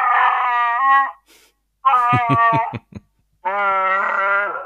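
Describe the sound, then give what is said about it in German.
A small plush figure about 20 cm tall, pressed on its belly, plays a loud recorded growling howl in three tonal bursts split by short silences. The middle burst breaks into rapid, throaty pulses. “So ein kleines Chewbacca-Plüschtier. Und wenn man dem auf den Bauch drückt, dann macht er folgendes Geräusch.”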